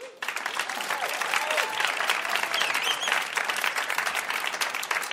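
Audience applause welcoming a contestant on a live game show, with dense, steady clapping from a crowd sustained for about five seconds.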